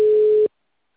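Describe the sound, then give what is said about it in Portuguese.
A telephone ringback tone plays while a call is being placed, one steady mid-pitched tone lasting about half a second before cutting off into silence. “Chamando ainda.”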